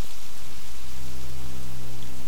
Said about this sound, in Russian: Однообразный монотонный дождь идет с самого утра.